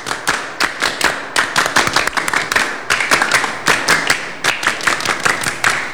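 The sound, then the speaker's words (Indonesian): Group hand clapping in a scout clap routine, many sharp claps in a fast patterned rhythm that repeats in short bursts, loud and steady, with no voices. “kita 2 kali tepuk pramuka bareng-bareng. 2 kali tepuk pramuka.”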